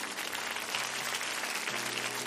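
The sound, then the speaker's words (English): A church audience claps hands in praise: dense, steady applause, fairly faint, with no voices standing out. “Give God a hand clap of praise.”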